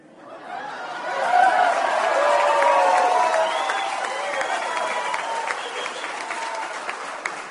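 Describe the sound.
A crowd of rocket workers cheers and applauds after a rousing speech. The dense clapping swells in over the first second and carries shouts and whoops. It stays loud, then eases slightly toward the end.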